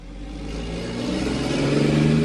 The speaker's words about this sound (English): It's tough to imagine a canal system in Back Bay when a cement truck rolls past you